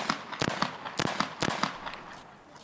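Gunshots from a police officer's gun: a rapid volley of sharp, loud cracks spaced roughly half a second apart, some stronger than others, ending in a fading tail with no voices.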